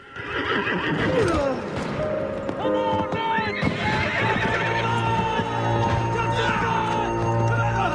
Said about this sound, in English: A horse rears, throwing its rider.